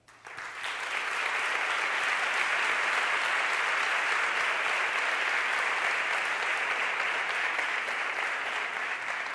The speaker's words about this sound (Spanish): Y, por supuesto, el aplauso de todos vosotros.